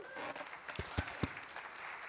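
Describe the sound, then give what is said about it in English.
An audience at a church service gives a faint round of applause, a soft patter of clapping with a few sharper, louder claps standing out near the middle. “Give Pastor Kathy a round of applause.”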